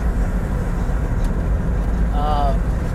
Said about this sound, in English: There'll probably be some background noise because I'm driving home after working a 16-hour shift today.